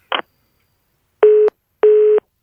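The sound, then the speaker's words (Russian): A telephone busy tone after a dropped call: a short click, then two steady, loud, evenly pitched beeps with a silent gap between them. “Сорвался звонок, судя по всему.”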